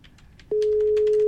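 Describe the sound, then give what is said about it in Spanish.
A telephone busy tone follows a rejected call: a loud, steady single-pitched tone cuts in about halfway through and holds unbroken to the end, after a short stretch of faint background sound. “No contesta todo. Nada, me rechazó la llamada.”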